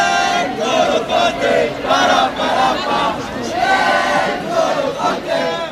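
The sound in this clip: A huge crowd of hundreds of thousands celebrating France's World Cup win on the Champs-Élysées in Paris: loud, continuous cheering and shouting that swells in repeated chant-like waves.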